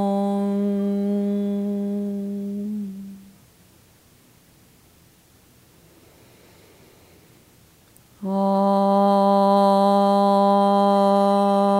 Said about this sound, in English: we're going to do three ohms here today to center ourselves.